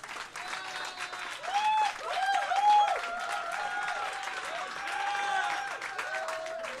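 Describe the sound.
Audience applause at a stand-up comedy show, a fairly quiet, steady wash of clapping lasting the whole clip, with crowd voices and cheers rising over it in places.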